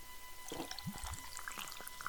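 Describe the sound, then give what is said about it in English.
Pouring of a fizzy cold apple drink, a steady rushing, splashing liquid sound with a few low gurgles, moderately faint, lasting the whole moment without talk. “I'm going to pour this off here. Okay. All right, here it goes.”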